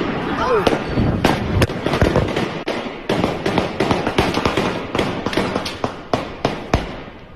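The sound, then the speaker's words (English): Gunshots in news footage from a crowded city street on a Saturday night: many sharp, loud bangs in rapid, irregular bursts, with people's voices underneath. “and you'll actually hear the gunshots.”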